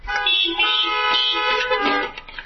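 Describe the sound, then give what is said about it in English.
Car horns honking together at a church service, several overlapping steady tones blaring almost continuously for over two seconds. “Amen? Honk your horn.”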